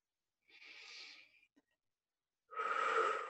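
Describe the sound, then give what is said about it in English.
A slow deep breath: a soft, airy inhale lasting about a second, a short pause, then a louder, fuller exhale, heard alone without talk. “Nice deep breath.”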